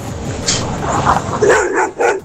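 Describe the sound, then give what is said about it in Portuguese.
Dogs bark in a few sharp, separate bursts, mixed with higher yips and whimpers. The barks are fairly loud and come at an uneven rhythm. “É dessa cachorrada, hein?”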